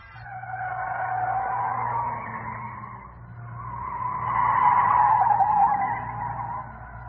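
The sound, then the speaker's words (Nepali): A motor vehicle arriving, its engine and road noise swelling in two broad surges over several seconds above a steady low rumble, with no voices. “गाडी आइसक्यो”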